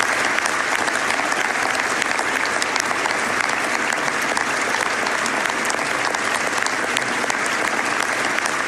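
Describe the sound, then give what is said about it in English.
Audience applause welcomes a performer billed as a feline sensation onto the stage: dense, steady clapping from many hands, loud and unbroken for the whole stretch, with no voices standing out. “Please, everyone, give a warm welcome to and put your hands together for Tigsy.”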